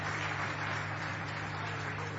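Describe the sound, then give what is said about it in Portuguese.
Faint applause from a church audience, a soft, continuous patter of many hands clapping together at an even level under a low steady hum. “Pode bater as palmas para Jesus.”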